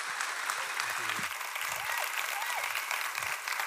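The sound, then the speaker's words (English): A church audience rises in a standing ovation to welcome a speaker. The dense, steady clapping lasts throughout, with voices calling out beneath it. “Will you put your hands together and welcome Dr. Don?”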